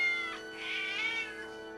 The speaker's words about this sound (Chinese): 可是他最最不喜欢的是管院子人的那只猫。那只猫啊，有点死皮赖脸，个子大的像只小老虎。